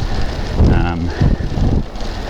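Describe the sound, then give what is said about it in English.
Wind rushes over the microphone of a cyclist on a long-distance road ride, a continuous broad roar that swells and eases slightly throughout. “I've had the wind against me more than I would have expected. It might be slightly behind or across me now. I don't think I'm riding into it.”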